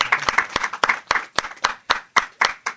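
Rhythmic hand clapping at a French church worship service, acclaiming scripture: many sharp claps in a steady, even beat throughout.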